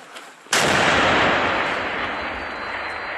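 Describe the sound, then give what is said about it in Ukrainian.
A recoilless gun (SPG) fires a single sudden, loud boom that spreads into a long, broad, rumbling decay. A faint sound comes just before the shot. “Бійці наводяться, дають команду «постріл».”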